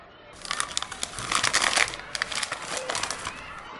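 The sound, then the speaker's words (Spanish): Papers crinkle as letters and a lollipop are pulled out of a bag, making bursts of crisp rustling and crackling in an irregular rhythm. The sound is moderately loud, with no voices. “Diego se queda solo y saca de su bolsa tres cartas y una paleta.”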